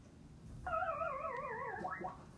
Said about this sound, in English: That sound was the Pac-Man Death Sound.